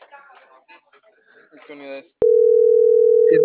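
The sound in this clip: A steady, mid-pitched telephone line tone sounds on a call that goes unanswered. It starts abruptly after a short stretch of talk, holds loud and unbroken, and a voice briefly cuts in near the end.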